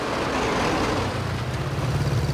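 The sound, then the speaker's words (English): Vehicles roll into a courtyard: a black staff car, two open-topped vehicles and a motorbike with a machine gun mounted in its sidecar. Their engines make a steady, low, continuous rumble with no breaks. “His attention is suddenly caught by vehicles streaming into the courtyard. A black staff car followed by two open-topped vehicles and a motorbike with a mounted machine gun in the sidecar.”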